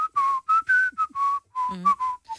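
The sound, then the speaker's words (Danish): A man whistles a character's melody from a children's story, a quick run of many short, bright, clear notes at a fairly steady mid-high pitch, with a brief warbling wobble near the end. “Og han fløjtede sådan en...”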